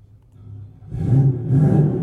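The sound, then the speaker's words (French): A car engine is heard from about eight metres behind the car, near the exhaust pipe. A low rumble starts quietly, then swells into louder, steady engine noise with two surges. “Là, on est loin derrière la voiture au niveau du pot d'échappement, mais à quoi, 8 mètres?”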